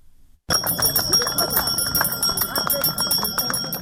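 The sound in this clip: A hand bell rung rapidly and continuously as the first school bell by a small child on the opening day of the school year, its bright jingling ringing over crowd noise and people talking.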